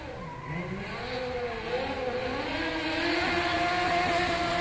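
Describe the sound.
A modified car drives fast down an alley at a live show, its engine revving with a wavering, rising tone that grows steadily louder, ending in a sustained roar.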